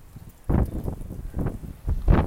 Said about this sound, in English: And the wind's picking up, a little bit wet. A few drops here and there.